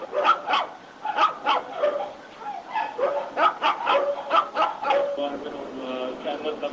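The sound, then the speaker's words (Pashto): Dogs barking at a non-governmental animal care centre that mostly houses dogs: many sharp barks and yips in quick, uneven bursts, loud and overlapping throughout. “دا مرکز دولتي نه دی، په دې کې تر ډیره سپی ساتل کیږي.”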